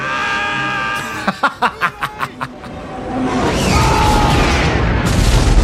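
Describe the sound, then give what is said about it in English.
A spaceship exploding in a film space battle: a tone, then a rapid run of seven sharp pulses, then a loud broad roar that swells and rumbles on to the end. “I don't like that it destroyed the entire ship”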